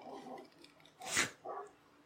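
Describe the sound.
A dog gives one sharp bark, fairly faint, with quiet talking before and after it.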